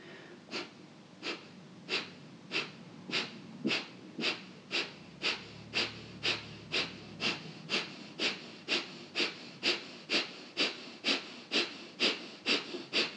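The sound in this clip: Kapalabhati breathing, with many rapid, forceful exhales through the nose in a steady, even rhythm, each a short breathy hiss, faint overall and with no talk.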